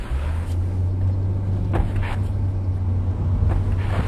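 A car engine drones with a steady low hum as the vehicle drives off after picking someone up, holding an even loudness throughout with no voices.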